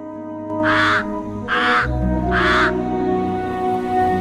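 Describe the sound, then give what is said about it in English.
Three harsh, evenly spaced caws come from a crow-like bird with white markings on the desert floor, each call loud and raspy, over a low steady rumble. “A crow-like bird with white markings alights on the desert floor.”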